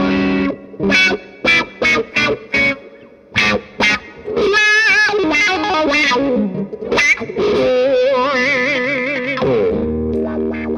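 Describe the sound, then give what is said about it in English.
Electric guitar runs through a noisy effects pedal with a frequency sweep and distortion. A few choppy, stabbed chords come first, then sustained notes whose tone wobbles and sweeps, before a brief low tail. “the crybaby kind of sound is more of almost sometimes a lower frequency sweep. Yeah. And this is kind of more the, I mean, it's a noisy bugger, as you can hear”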